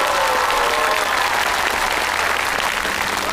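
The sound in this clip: Warm applause greets an official coming up to present awards to the winning teams at a district culture and tourism event. The crowd claps loudly in a dense, unbroken wash throughout.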